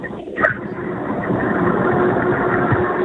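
A car engine runs while driving through the mountains, a steady mid-low hum heard thinly over a phone line, with a brief clattering noise near the start.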